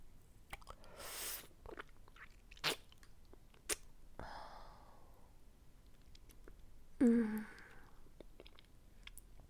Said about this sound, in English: This popsicle tastes so fucking good.